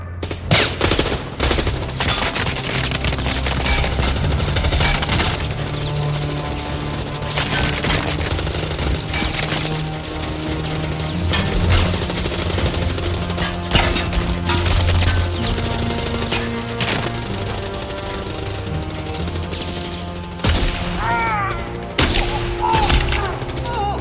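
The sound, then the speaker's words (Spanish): Soldiers firing guns at a man: loud, rapid gunfire in many sharp shots and bursts, some fast enough to sound like machine-gun fire, continuing through the whole clip. “¡Disparad sobre él!”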